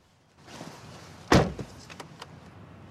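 A car door shuts with one solid, heavy thud as someone gets into the driver's seat. Low rustling comes before it, and a few faint knocks and clicks follow. No one speaks.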